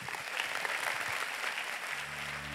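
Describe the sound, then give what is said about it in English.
A church audience applauds to welcome a speaker. The clapping is steady and dense and runs the whole length, with a low, even hum joining near the end. “So church, can you help me, wherever you're watching with me together, put your hands together to welcome Mr.”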